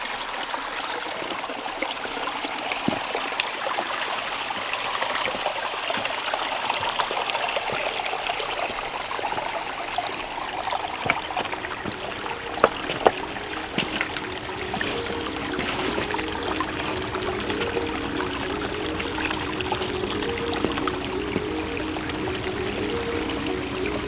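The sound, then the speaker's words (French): Clear water trickling through a stream in a gorge: a steady, continuous wash with a few brief, louder splashes in the middle, and no voices. “Où ruisselle une eau limpide et rafraîchissante.”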